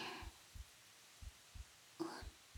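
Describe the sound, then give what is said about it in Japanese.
A heartbeat of someone hiding in a trash bin comes through as soft, low, muffled thumps in doubled beats, repeating at a steady pace over quiet background hiss. “なんだかその、私の心臓の音が 一番うるさかったかもしれませんね。”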